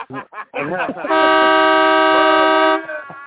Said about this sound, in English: hit that horn one more time